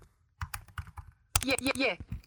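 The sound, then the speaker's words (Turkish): Typing on a computer keyboard while entering an address into a web browser's address bar: a quick run of crisp key clicks, followed by denser clicking as a voice speaks over the later part. “Google Chrome'da adres çubuğuna yazıyorum.”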